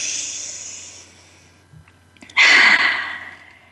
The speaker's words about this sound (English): One more big breath.